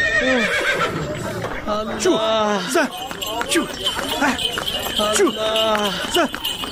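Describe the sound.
Horse neighing while pulling a buggy, giving several loud, high whinnies that waver and break off, with quieter snorting and movement between them.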